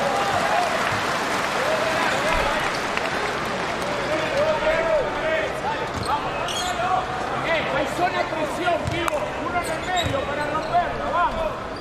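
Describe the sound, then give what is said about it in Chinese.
Applause and crowd noise fill a basketball arena during a China team game, with ball bounces and sneaker squeaks breaking through a dense, steady wash of clapping and voices. “没关系，掌声鼓励一下李洪全，加油加油。”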